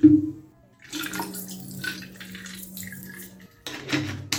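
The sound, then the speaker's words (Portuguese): Liquid gushes and splashes as a tank is filled with a rocket fuel mixture boosted with blue crystals. A steady low hum runs beneath the pouring, which cuts off abruptly near the end and then briefly resumes. “Enchendo o depósito com uma mistura de combustível de foguetão, potenciada com cristais azuis.”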